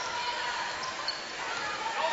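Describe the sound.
A basketball dribbled on the court during a high school game between Western Reserve and Norwalk, its bounces faint under a steady, dense wash of noise.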